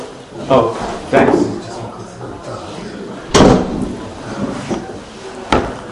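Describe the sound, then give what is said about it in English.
A door is pushed closed with a few dull thumps and clunks spread across the stretch, the loudest in the middle, while a man keeps talking. “if you don't mind, I'll just take a minute to close the door because”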